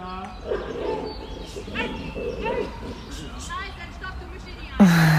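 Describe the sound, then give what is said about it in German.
Excited yips and whimpers from a white-and-black dog greeting people it knows, repeated in short bursts under steady talking, with one louder yelp at the end. “Der weiß-schwarze Hund, der die ganze Zeit so ruhig war, hier hat offensichtlich Leute, die er sie kennt, weil er sich tierisch über die Menschen gerade freut.”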